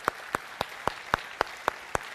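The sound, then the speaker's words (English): Applause from a church audience, led by about nine sharp, evenly spaced claps in a steady rhythm over a softer, continuous wash of clapping. “Yes, let's give the Lord a round of applause.”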